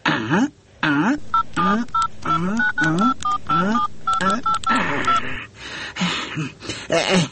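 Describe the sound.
A telephone number is dialled: many short touch-tone beeps in quick succession, each a brief steady tone, with voices sounding over and between them.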